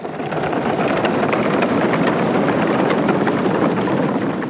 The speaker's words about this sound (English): In this case, their wheels are the sound of skateboards ridden over cement in the hallways of a high school.